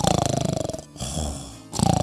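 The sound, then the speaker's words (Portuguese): A voice imitates a person snoring, with loud, rapid rattling pulses, a breathy pause in the middle, then the rattling snore returning at the end. “tá roncando”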